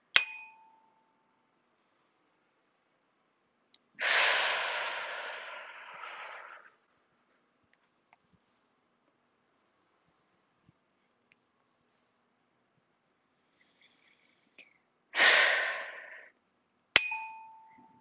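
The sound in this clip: Slow, deep breathing with two long airy breaths separated by a stretch of silence, each rising quickly and then fading, and a soft bell-like ding at the start and the end.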